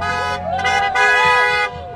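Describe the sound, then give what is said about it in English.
Car horns honk on a street during a protest rally on Western Avenue, with loud, sustained, overlapping blasts that swell and briefly dip over steady traffic noise. “Cars honking here on Western Avenue.”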